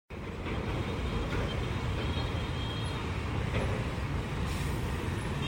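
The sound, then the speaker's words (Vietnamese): Container trucks and lorries stream along Nguyen Duy Trinh road between the Phu Huu roundabout and the Phu Huu industrial park in the morning, a dense, continuous traffic rumble with steady engine and tyre noise and no pauses. “Bảy giờ 30 sáng, sau khi hết khung giờ cấm, dòng xe container, xe tải bắt đầu nối đuôi nhau chạy vào đường Nguyễn Duy Trinh từ Vòng Xoay Phú Hữu đến khu công nghiệp Phú Hữu và ngược lại.”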